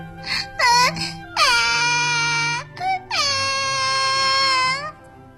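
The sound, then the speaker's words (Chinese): Two little children cry loudly in long, high wailing sobs. A few short cries come first, then two long drawn-out wails separated by a brief gap. “可是露露和罗罗却大哭了起来。”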